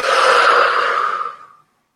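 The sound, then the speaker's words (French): One long, deep, airy exhalation during a guided breathing exercise, steady and fairly loud before it tapers off smoothly into silence. “Et encore une fois, on inspire. Et on expire.”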